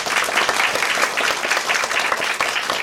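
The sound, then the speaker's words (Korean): An audience applauds at the close of a literary reading, a lively, continuous round of many people clapping that holds steady throughout, with no voices over it. “다시 한번 박수 보내주시고요.”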